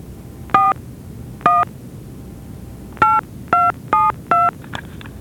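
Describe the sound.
Mobile phone keypad dialing tones: six short, evenly loud electronic beeps. Two are spaced well apart, then four come in a quicker run, with nothing else in between.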